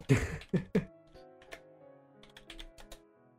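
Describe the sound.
Typing a web search on a computer keyboard brings a sparse, irregular run of faint key clicks, preceded by a few louder bursts at the start.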